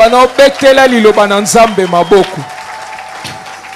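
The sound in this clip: Church audience applauding, with dense clapping throughout and loud raised voices ringing out over it for the first couple of seconds before the clapping carries on alone.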